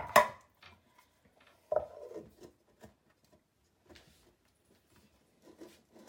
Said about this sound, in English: Now, this is a very old aluminum pan, so the lid, you have to play with it to actually cover it.